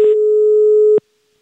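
Telephone line tone sounding as a call is placed again: a single steady electronic beep lasting about one second, alone, with a small click at each end before silence.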